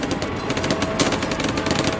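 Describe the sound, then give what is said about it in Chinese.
Machine gun fire at a river crossing rattles in rapid, continuous bursts that hold pinning fire on advancing infantry, a sharp dense clatter lasting the whole short stretch, loud and without voices. “他们奋力前行，但由于机枪火力的压制，他们无法渡河，到处都是机枪的关卡。”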